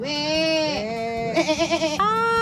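Sheep bleating in a continuous run of calls: a few drawn-out, nasal bleats, a quavering tremolo in the middle, then a higher final cry, all fairly loud and alone.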